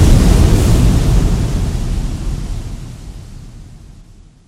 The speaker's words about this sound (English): Forks of white lightning flash down from the clouds. White swelling waves crash into shore.